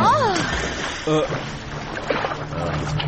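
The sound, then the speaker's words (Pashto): A splash as a demon leaps from a boat into the water after heavy jewels that were just thrown overboard. One short burst of water sound comes partway through, under steady voices. “هغه مدرکه دینا درانه زیورات له بیړۍ نه اوبو ته واچول او په همدې وخت کې ناڅاپه دیو هم زیوراتو پسې ټوپ کړ.”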